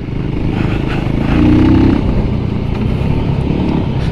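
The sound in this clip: A VOGE 300 Rally motorcycle engine drones while riding over dry, dusty ground, a continuous loud rumble mixed with clattering and scraping noise, swelling briefly in loudness midway through.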